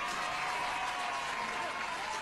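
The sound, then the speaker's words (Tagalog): An audience applauds six contestants at a local contest, with dense, steady clapping at an even level throughout. “Palakpakan tanay. Salamat ang aton anom ka mga contestants.”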